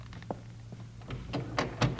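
Knuckles knock on a door several times, making dull, muffled thuds at an uneven pace that grow slightly louder toward the end.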